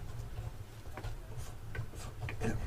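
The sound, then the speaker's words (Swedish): A pen scratches faintly on paper as someone writes something down, making a few brief, soft strokes spaced irregularly over a low steady background. “Jag ska bara skriva upp här.”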